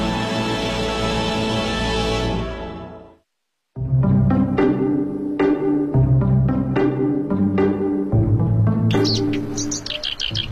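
Song of a black-browed reed warbler, a bird of reeds, delivered as a loud, busy run of rapid chirps and harsh, scratchy notes after a short pause, with bright high accents near the end.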